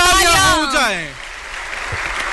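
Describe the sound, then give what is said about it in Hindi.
Applause from an audience at a formal public event welcoming the Prime Minister: a steady, dense clatter that keeps going after a voice fades out in the first second. “देवियों और सज्जनों, तालियों की गड़गड़ाहट रुकनी नहीं चाहिए.”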